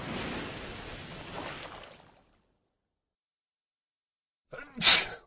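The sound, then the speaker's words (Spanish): A single sharp sneeze bursts out near the end after a stretch of silence, brief and loud with a quick breathy attack. “¿Sabías que cuando estornudas, el aire sale de tu nariz a una velocidad media de 160 km por hora?”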